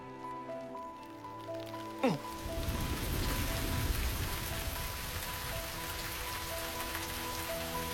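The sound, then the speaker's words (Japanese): Rain falling in a steady, dense patter that begins about a quarter of the way in and continues evenly to the end, preceded by soft sustained tones. “ちょろちょろ雨降る、雨降る降る、 もうすぐ雨降るって。”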